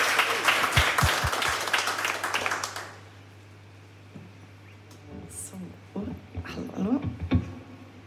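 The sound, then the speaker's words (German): Audience applause at a live radio concert: dense, loud clapping for about three seconds, then it stops abruptly and quieter talk follows. “Also jetzt bitte nochmal einen donnernden Applaus”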